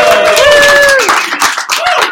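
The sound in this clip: An audience at a live recorded session at the Ng-Conf conference claps and cheers. A short, loud burst of applause mixes with whooping voices, and someone speaks over it.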